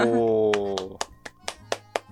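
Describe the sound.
Hand claps for a birthday follow a brief voice. The claps are a slow, evenly spaced run of sharp, dry snaps.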